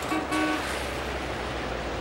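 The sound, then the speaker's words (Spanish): A car pulls up in front of a luxury hotel at night, with a low, steady traffic rumble and a couple of short horn toots near the start. “En otra calle, un coche se detiene ante un lujoso hotel.”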